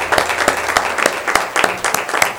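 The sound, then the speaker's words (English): Applause from a church audience giving a clap of praise at a Mother's Day service: a steady run of sharp hand claps, fairly even in rhythm, filling the whole stretch at a strong level. “Clap of praise this morning. Hallelujah.”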